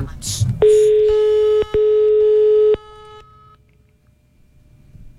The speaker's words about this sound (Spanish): Llamando.